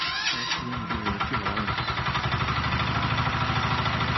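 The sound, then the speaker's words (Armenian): A walk-behind tractor's engine runs during a test of the machine, with a loud, steady chugging that settles into a regular pulsing rhythm and has no talk over it. “նաև փորձարկեցին, թե ինչպես է աշխատում մոտոբլոկը”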